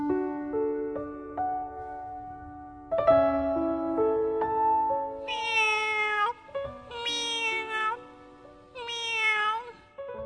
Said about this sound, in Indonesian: Kucing.